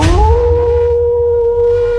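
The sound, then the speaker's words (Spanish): Wolf howl sound effect in a radio jingle, one long tonal howl that climbs briefly at the start and then holds a steady pitch with clear harmonics, over a faint low rumble. “Aquí comienza Aullido Más Poderoso de la Radio, el playlist del Lobo.”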